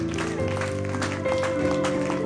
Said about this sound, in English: Give our God a hand clap of praise.